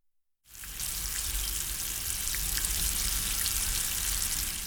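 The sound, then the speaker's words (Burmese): Sauce boils and bubbles in a pot, a steady sizzling hiss with small scattered pops that starts abruptly and keeps an even, moderate level throughout. “အချိုးရည်ဆူလာပြီဆိုရင်အိုးရဲ့မျက်နှာပြင်မှာပွက်လာပါမယ်”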